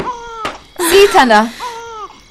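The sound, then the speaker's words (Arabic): A baby cries in a few loud, wailing bursts, with a longer, strained wail in the middle between shorter cries. “ما به؟ لما يبكي؟”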